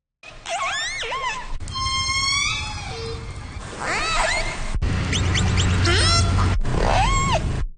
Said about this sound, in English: I just want to play that again because that's a number of different clips from different orcas at different times.